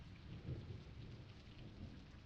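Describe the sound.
A thunderstorm with steady rain: faint, continuous patter of rainfall over a low rumble of thunder, with no voices.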